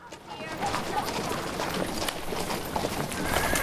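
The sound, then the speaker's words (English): Hooves clip-clop as a horse-drawn coach rolls around a corner into a town's main street, with riders on horseback alongside. The hoofbeats form a steady, rhythmic patter over a continuous rolling rumble. “In town, DeRose's coach rolls around the corner and into the main street, driven by Abel.”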